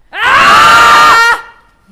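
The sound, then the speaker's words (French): A single loud, sustained human scream of anger and rage, tinged with sadness, holds a strained, steady pitch for about a second before breaking off abruptly into silence. “Et c'est un cri de quoi alors? De colère. Ouais. Et de rage. Et de tristesse aussi.”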